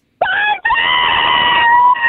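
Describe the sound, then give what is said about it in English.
A woman screams on cue for a ticket giveaway contest while driving to work: a loud, high, sustained shriek, broken once by a brief catch of breath, then held steadily to the end. “We're going to give you a 3, 2, 1. Scream for Barnsley tickets. Here we go. 3, 2, 1, go.”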